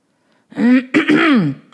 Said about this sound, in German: Jemand räusperte sich vernehmlich.